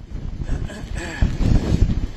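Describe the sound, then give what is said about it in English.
Strong storm wind buffets a microphone on Pensacola Beach, Florida, amid sustained winds and rain: a loud, continuous low rumble that grows heavier in the second half. “Oh, the wind is really pummeling us right now.”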